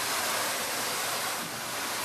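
Water sprays over live crabs, freshly cleaned of barnacles, as they are rinsed in a large warehouse: a steady, even hiss of running water that holds at a constant loudness with no voices.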